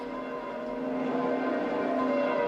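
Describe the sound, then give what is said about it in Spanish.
Church bells ringing in St Peter's Square at the Vatican after the Sunday Angelus, a steady, sustained wash of overlapping bell tones with no clear separate strikes, moderately loud throughout. “Con estas campanas despedimos la retransmisión del Ángelus Dominical del Santo Padre”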